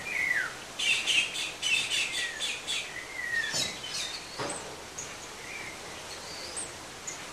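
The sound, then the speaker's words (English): Several birds chirp and twitter together while feeding, with quick repeated high chirps that are busiest and loudest early on, then thinning to scattered fainter calls. “look at the birds there, some of them feeding up there. They look so comfortable, all of them together”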